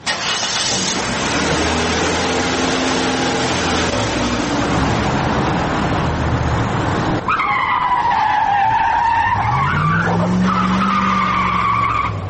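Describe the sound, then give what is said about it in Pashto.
Car engine roaring loudly and steadily as the car is driven fast, then sharp high tyre squeals from skidding in the second half, with a low rising whine near the end. No talk. “استاد موټر لک قرار چلاوا، ولی دوبره بیړه لری”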